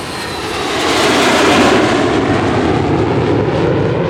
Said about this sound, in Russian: Самолет нас уже ждет. Вперед! На Северный полюс!